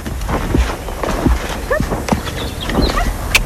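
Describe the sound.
A horse walks in a riding arena at a small equestrian centre. Its hooves land in a slow, even rhythm of a few soft thuds, with faint chirps in the background.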